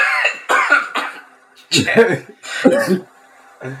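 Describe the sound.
Phlegmy coughing from a man: a few harsh, wet bursts in an irregular rhythm, loud and close together, with throat clearing between them.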